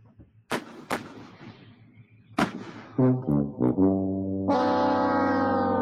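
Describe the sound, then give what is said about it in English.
A novelty tank sound effect from a soundboard button: three sharp, booming blasts spaced apart, then a few short buzzy horn-like bursts leading into a long, loud, sustained harmonic horn tone. “This is me stalling, trying to find my tank sounder. And here we go.”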